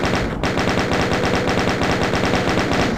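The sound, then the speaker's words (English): Rapid gunfire from a weapon in a first-person shooter video game, a steady, loud stream of many quick shots at an even rhythm with no pause, no talk. “Let's try that shotgun. There we go.”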